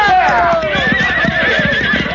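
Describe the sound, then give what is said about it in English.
Horses neigh in a loud, quavering whinny over a steady rhythm of clip-clopping hooves that continues through the whole stretch. “Now turn them horses around.”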